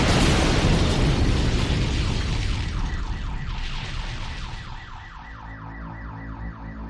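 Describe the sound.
A truck bomb loaded with about 2,300 kilos of ammonium nitrate and fuel explodes with a huge, loud roar that slowly decays. Car alarms then wail in a repeating warble.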